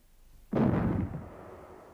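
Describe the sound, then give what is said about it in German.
A small cannon fires a salute shot: one sudden, loud, deep boom that fades into a long rumbling tail. The blast stands alone with no voices. “Zwei kleine Kanonen schossen harmlos wie ein Spielzeug zum blauen Himmel an. Beim Zeichen der Böllerschüsse”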